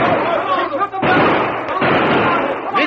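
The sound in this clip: Gunshots ring out during a western shootout among cattle, a few sharp blasts cutting through shouting voices.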